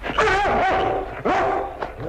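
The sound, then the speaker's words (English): A dog barking and yelping during a confrontation, giving a few sharp, strained barks with whining tonal edges and short pauses between them. “Get this dog away from me.”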